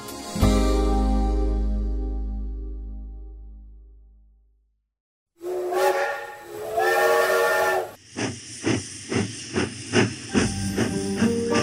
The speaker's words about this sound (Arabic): توت توت توت، وقبل قطر الاحلام ما يعدي ويفوت